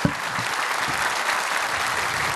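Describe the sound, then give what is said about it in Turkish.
An audience applauds the orchestra at a live music performance, with dense, steady clapping holding an even loudness throughout. “Efendim o güzel alkışlarınız bir de orkestramız için olsun.”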